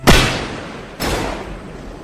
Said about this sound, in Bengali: গর্জে উঠল বিমল ও কুমারের বন্দুক।